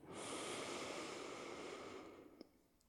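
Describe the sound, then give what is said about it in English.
A single deep breath is drawn in during a breathing exercise. It is a long, soft, airy inhale lasting about two seconds, heard alone, then it fades out. “Let's take a real deep breath into that place. Inhale.”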